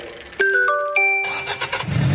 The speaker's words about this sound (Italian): Macchina nuova.